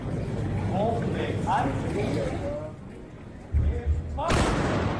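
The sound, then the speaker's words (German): A voice calls out, then the women's salute squad of the Kamenz shooting society fires a rifle salute volley, heard as one abrupt, loud blast near the end. “Seit letztem Jahr hat die Schützengesellschaft Kamenz das deutschlandweit erste und einzige weibliche Salutkommando. Dabei wird auf Kommando zu Ehren einer bestimmten Person oder eines Anlasses geschossen.”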